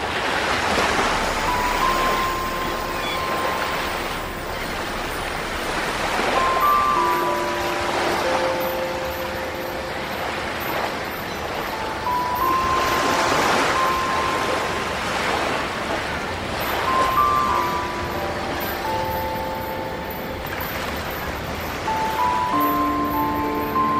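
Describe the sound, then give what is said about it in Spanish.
Sea waves wash in slow, repeated swells, each surge rising and fading every few seconds. A steady hiss of wind and a low rumble run beneath them. “El sonido del mar y las aves dan el indicio del comienzo de nuestra historia.”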